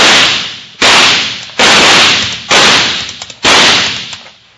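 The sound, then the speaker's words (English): Gunshots ricocheting off rocks in a radio drama shootout: five loud, sharp cracks in a steady sequence, each trailing off in a long ringing decay. “But we can sure make it too hot for him to stay there. We'll skip slugs off the sides of those rocks.”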